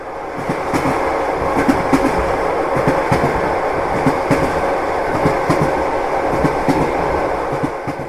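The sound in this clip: Train wheels clickety-clack on the rails as a passenger train with a dining car runs along. A steady rumble carries rhythmic clicks and knocks throughout, with no voices.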